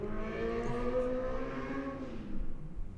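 A car races past outside at night, its engine a steady, droning hum of layered tones that swells slightly near the end, with no talk.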